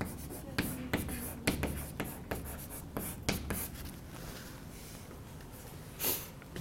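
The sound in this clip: Handwriting during an astronomy lecture: many quick, scratchy strokes tap and scrape in an irregular rhythm, followed by a quieter stretch and one longer, brighter scrape near the end.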